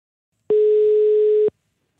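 A ringback tone from an outgoing telephone call to an author sounds as a single steady, mid-pitched electronic tone lasting about one second. It starts and stops abruptly, with silence on either side.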